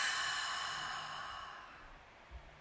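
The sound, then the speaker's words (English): A long, soft breath out, taken as part of a guided deep-breathing moment with eyes closed. The quiet airy hiss starts fullest and slowly fades away. “let's take a deep breath in. Full breath out.”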